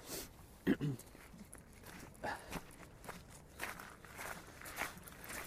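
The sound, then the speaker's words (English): Footsteps of people walking by, soft and irregular, with a few scuffing steps and brief faint voices, all quiet and low in level. “Bear with me a second. It's just some people walking by.”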